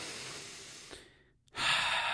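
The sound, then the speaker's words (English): A person breathing deeply: a long, airy breath fades away into near silence, then a loud, breathy rush of air follows and holds to the end. “Let me just breathe for a second.”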